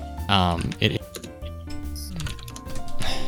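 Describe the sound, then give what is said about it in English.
Typing on a computer keyboard in a studio, with quick irregular key clicks under steady talking and other sound throughout. “I need to mute the typing. As far as people outside of the studio goes, like stuff like that typing, I can't control, so that channel's muted.”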